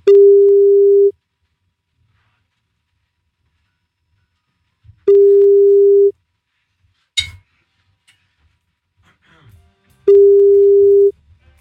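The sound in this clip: Ringing tone on an outgoing telephone call: three loud, steady single-pitch tones, each about a second long and spaced roughly five seconds apart, with a brief clatter and faint rustling between the second and third.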